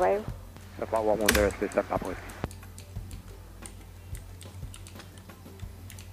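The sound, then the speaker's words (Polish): The up button is pressed on a keyboard. A few sharp clicks follow a short stretch of talk, and scattered faint ticks continue after them. “Naciskam przycisk up.”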